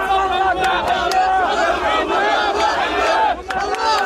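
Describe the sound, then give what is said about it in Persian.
A crowd of Israelis celebrates the release of hostages held by Hamas, with many voices shouting and cheering loudly and continuously and only a brief dip in the din near the end. “شادی اسرائیلی ها به خاطر آزادی شماری از گروگان ها از دست حماس.”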